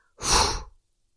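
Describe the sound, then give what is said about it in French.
A single breathy exhale released after holding the breath during a neck relaxation exercise: a short, soft rush of air lasting just over half a second, alone in silence. “Et quand on peut plus tenir au niveau inspiratoire, on expire.”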